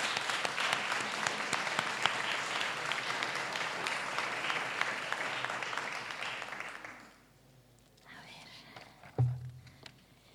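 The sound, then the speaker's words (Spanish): Audience applause at a charity concert inside a village church, sustained clapping for about seven seconds before fading into quiet murmurs, a brief low thump, and soft shuffling. “se merece un aplauso por la organización de esto.”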